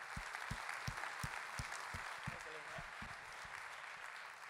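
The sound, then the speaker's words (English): A church audience gives soft, steady applause to welcome a guest speaker. The broad clapping holds at a low, even level, and a series of regular low thuds sounds beneath it. “So if you would put your hands together, give a welcome to Jim King.”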